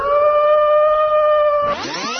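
A wolf howls in a forest setting: one long, steady, tonal note held for well over a second, which then breaks off into a brief, rougher sweeping sound.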